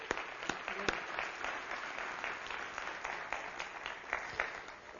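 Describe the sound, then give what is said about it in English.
Audience applause welcoming a speaker to a church morning gathering, a dense, steady wash of clapping that holds at an even level for about five seconds, with a few sharper claps standing out. “Would you please put together your hands and give a great KCC welcome?”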